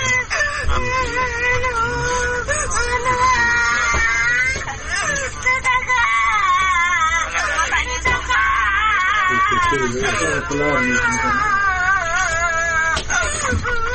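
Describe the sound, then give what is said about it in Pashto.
A young girl cries loudly and calls for her parents as she lies on a bed after an avalanche killed her family, with long, wavering, high-pitched wails sustained throughout. “اوس په یو کټ کې پرته ده. په چغو چغو ژاړي او خپل مور او پلار له خلکو غواړي.”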